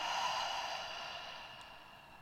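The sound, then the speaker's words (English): A long, steady breath taken during a guided mindfulness exercise: a soft, airy rush of air that is strongest at the start and fades gradually over about two seconds. “One more time through the nose. And release.”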